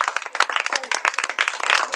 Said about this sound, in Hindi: बहुत अच्छे, जोरदार तालियां बजा दो भाई